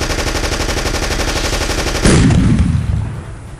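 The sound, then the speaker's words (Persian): Machine gun fire from a tank in a war drama sound effect: a fast, steady, loud rattle of rapid shots for about two seconds, then a heavy blast-like burst that slowly decays into a fading rumble. “اما تیرباچی تانک هم دست چپ اونو به رگبار بست و بدجوری زخمی شد.”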